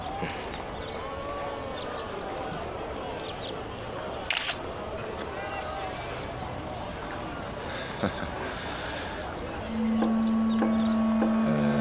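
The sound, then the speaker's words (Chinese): Two crisp camera shutter clicks as a photograph is taken, brief sharp snaps a few seconds apart amid a busy, murmuring background. “能给我拍张照片吗？当然没问题。”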